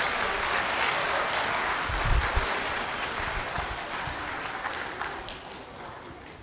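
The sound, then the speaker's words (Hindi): Loud, sustained applause from an audience welcoming a speaker: dense, steady clapping that fills the whole stretch without a break. “एक बार पुनः जोरदार clapping के साथ दीदी जी का स्वागत।”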